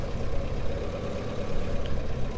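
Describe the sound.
A car is being parked: a steady low engine rumble drones evenly throughout, with no distinct events standing out.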